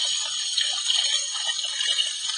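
Water gushes steadily from a tap for hand washing, a continuous bright hiss that holds an even level from start to finish, with no talk.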